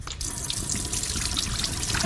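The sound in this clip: Water running from a sink tap: a steady, continuous splashing trickle that lasts about two seconds at an even level, with no voices.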